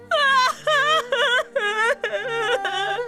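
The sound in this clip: A woman crying in loud, tremulous wails, a string of about six drawn-out sobbing cries with wavering pitch, each separated by a short gap.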